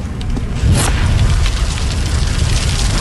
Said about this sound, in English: So that's fire.